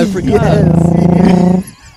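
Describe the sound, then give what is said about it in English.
A voice imitates a bus engine, a loud, steady buzzing drone with a slight waver near its start, held for about a second and a half before cutting off abruptly. “just out of nowhere, just make a fucking bus noise. You don't understand. Yeah. He would do, like, the gear change.”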